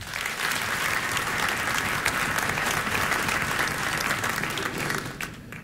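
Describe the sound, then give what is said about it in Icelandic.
A concert audience applauds a pianist with sustained, even clapping that holds strong for several seconds before thinning out at the end. “Við gefum honum gott klapp.”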